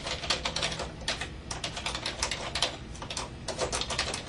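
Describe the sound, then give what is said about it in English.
Typing on a computer keyboard, with many quick, crisp keystrokes in an uneven, steady stream at moderate volume and no talking. “Let me type this in.”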